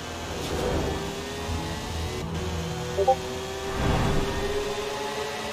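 Car engine racing at over 200 miles an hour in the video game Forza Horizon 4, a steady, droning hum with a tonal edge that swells slightly near the start and again near the end.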